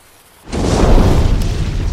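A fire being started erupts in a sudden loud explosive burst that swells into a sustained, roaring whoosh, continuing strongly to the end after a near-silent opening.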